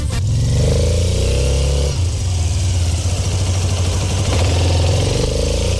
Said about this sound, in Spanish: Eso es una tremenda moto, señores. Esto es un espectáculo y suena así